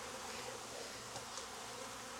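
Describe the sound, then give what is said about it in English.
Honey bees buzz faintly around a queen cage, where nurse bees attend a virgin queen. The hum is steady and unbroken, with no other sounds. “I guess I need nurse bees. This one looks like they might have some alive in here. See how they're attending on this one?”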